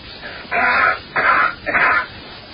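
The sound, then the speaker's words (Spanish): A man coughing, presented as a cough heard on Mars: three harsh, breathy bursts in quick succession, each about half a second long, heard alone with no talk. “coughing on Mars. Fíjate cómo tose.”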